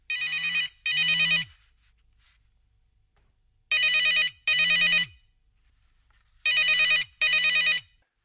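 A telephone rings in three pairs of shrill electronic trills, six bursts in all. Each pair is separated by a clear silence.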